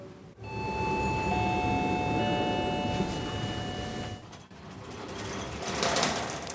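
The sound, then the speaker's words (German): Glass passenger elevator in Berlin's state parliament building, running on cables: a steady mechanical drone with sustained high whining tones, briefly interrupted partway through before resuming. “kommen dadurch auch mal in den Genuss, mit einem Fahrstuhl zu fahren. Aufzug 3 steht groß drüber.”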